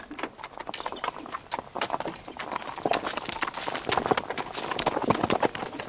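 Hooves clip-clop steadily as a horse-drawn cart passes, a continuous run of many sharp hoof strikes that grows slightly louder toward the end.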